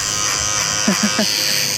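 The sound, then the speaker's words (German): An electric razor buzzes at a hairdresser, a constant high-pitched drone that runs the whole time, with a brief voice speaking over it near the middle. “das Rasierapparat, der Coiffeur. Gell, stimmt.”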